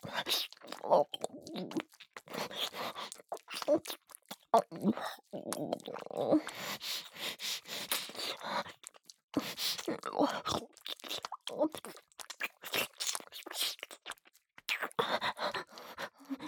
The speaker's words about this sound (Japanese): もっと、もっと深くて、濃いキスしましょう。